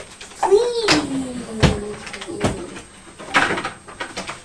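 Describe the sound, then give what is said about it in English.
A cupboard being closed at home, where tapes are kept, gives a few sharp knocks and thuds among a child's high voice and other talk. “You're closing up the cupboard.”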